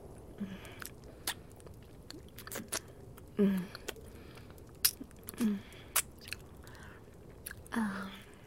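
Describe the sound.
Chewing and biting food: wet, squishy bites and smacking mouth sounds come in a few irregular bursts, some louder than others, with short quiet gaps between them.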